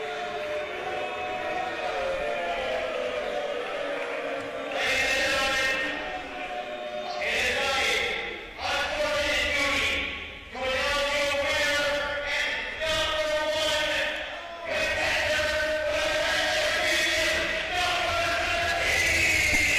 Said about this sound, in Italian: Fischi del pubblico per Number 13.